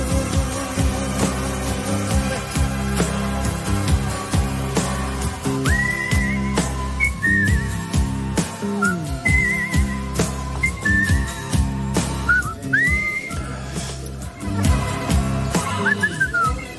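Whistling over a song with steady instrumental backing, the whistled tune coming as several short, high phrases scattered through the music.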